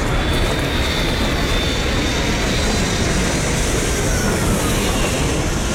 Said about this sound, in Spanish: hasta el avión pasó y todo eso